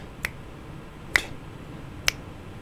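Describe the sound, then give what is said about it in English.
Crisp finger snaps keep a rhythm: three sharp clicks evenly spaced almost a second apart, alone over a quiet background. “We're gonna try one more and just follow. See, hear my snaps.”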